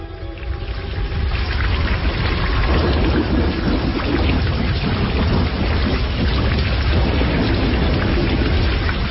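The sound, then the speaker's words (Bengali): A heavy rain shower pours down over an open field, a dense, loud, unbroken roar of water that holds steady throughout. “লোকালয় ছেড়ে যখন আমরা ফাঁকা মাঠের মাঝখানে এসেছি তখনই শুরু হল বৃষ্টিপাত।”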